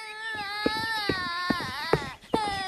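A young girl crying after falling while climbing out of a wooden tub and cutting her mouth. The high, sustained wailing is broken by a few sharp sobbing catches and a brief pause near the end.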